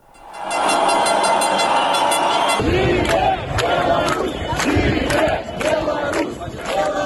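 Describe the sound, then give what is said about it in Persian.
A protest crowd in Minsk, Belarus, demonstrates against the presidential election results with loud, massed chanting and shouting. Rhythmic bursts of voices dominate the second half. “با این توضیح که گزارش وی با صدای تظاهرات شروع می شود”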